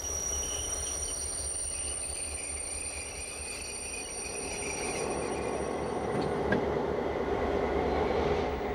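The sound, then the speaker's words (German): A CFL class 1800 locomotive of Luxembourg's state railway, built in the early 1960s by Belgium's La Brugeoise et Nivelles, rumbles steadily with a low drone, high sustained wheel squeal and faint clatter, growing slightly louder toward the end. “Wirklich historisch ist die Baureihe 1800 eigentlich noch nicht, aber sie gehört zu den Altbaufahrzeugen der luxemburgischen Staatsbahn CFL.”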